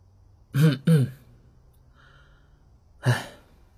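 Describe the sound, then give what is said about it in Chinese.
Light throat clearing by a man, two quick gruff bursts close together and then, after a pause, a third breathy burst, with no speech around them. “轻轻咳嗽了一声，叹了口气。”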